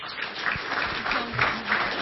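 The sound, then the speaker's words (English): Audience applause greets a speaker introduced for a talk on blockchain and emerging-market investment. Steady, moderate clapping continues evenly with faint voices underneath. “Why don't you give her a round of applause?”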